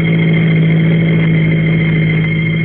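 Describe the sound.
A car engine runs while driving: a loud, constant, smooth drone with a strong low hum that stays even throughout, with no speech.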